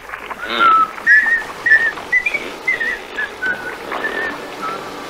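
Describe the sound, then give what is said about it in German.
Whistled cheerful little tune, a run of clear, bright notes that rise and fall in a lilting melody, moderately loud and heard alone without talk. “Und inzwischen pfeifen wir uns ein hübsches Liedchen.”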